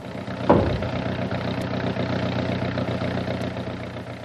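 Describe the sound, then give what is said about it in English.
Aircraft motors starting up: a low engine rumble catches with a sharp burst, then settles into a steady, droning idle that holds to the end. “You'd better start up the launch and get clear before I start the motors.”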